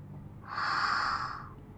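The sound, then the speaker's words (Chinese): A person who has suddenly become nervous takes one short, airy breath, rising and fading within about a second, with no voices around it. “你好像突然有点紧张哎。呼吸是不是变快了？”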